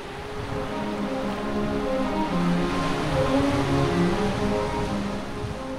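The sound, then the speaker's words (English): Wild wind blowing at the end of a pier on Lake Ontario, as a steady, loud, unbroken rush mixed with surging water, with no voices. “With a wild wind blowing, I reached my destination.”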